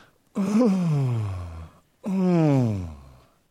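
Two drawn-out human groans, loud and voiced, each sliding steadily downward in pitch and fading out, separated by a short pause.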